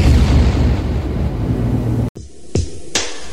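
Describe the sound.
Explosion sound effect in a radio station jingle: a loud, roaring blast rumbles for about two seconds, cuts to sudden silence, then two sharper bursts follow.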